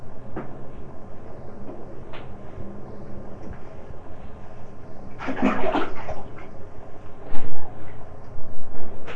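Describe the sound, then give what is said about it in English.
Water splashes in a bathtub where a small child is playing. Intermittent sloshing swells louder toward the end into a few strong splashes. “splash. Splash.”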